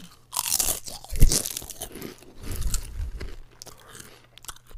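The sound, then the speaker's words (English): Loud crunching and chewing of White Rabbit candy flavored Lay's potato chips, with a few sharp crisp bites breaking apart followed by grinding mastication, heard alone without talk. “these are just regular Lay's, but they're White Rabbit candy flavor.”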